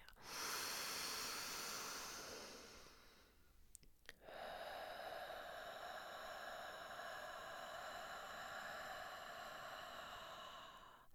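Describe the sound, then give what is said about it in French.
A deep inhalation during a guided breathing exercise: a soft, steady airy hiss of breath drawn in over several seconds, faint and without talk. “on appuie, on appuie encore. Et on inspire.”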